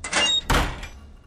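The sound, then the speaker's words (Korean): A door is slammed shut in anger: a first knock is followed by a loud, heavy bang that rings out and decays within about a second. “나는 문을 신경질적으로 꽝 닫고 문에 있는 자물쇠란 자물쇠는 다 잠궈 버렸다.”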